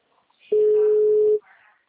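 Telephone ringing as a call is dialed: a single steady ring tone lasting just under a second, with faint sounds before and after it.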